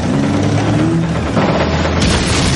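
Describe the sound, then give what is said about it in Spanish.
Explosion of a shot striking an armoured vehicle in a Second World War battle film scene, a dense, loud, sustained roar with heavy low rumble that shifts in texture near the end. “El segundo disparo lo convierte en una bola de fuego.”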